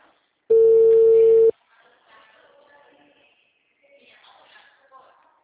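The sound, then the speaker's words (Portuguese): A phone call rings out while the caller waits for an answer: one long, steady ringback tone sounds alone, then quiet talk follows. “Só um instante, que eu tô em chamada, torcendo para ela atender.”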